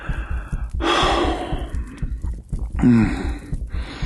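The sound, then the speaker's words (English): Breathing heard through a binaural stethoscope: a long, airy breath followed after a pause by a shorter, voiced gasping breath. “How your breathing gets faster.”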